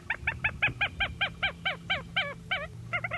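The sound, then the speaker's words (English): A marsh hen (clapper rail) calls a long series of harsh, clattering notes in a steady rhythm that spaces out slightly before a quick final pair, over a low constant hum. “I think that's a marsh hen”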